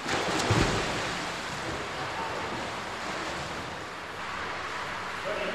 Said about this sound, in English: I like splashing. I'm swimming here with Daddy.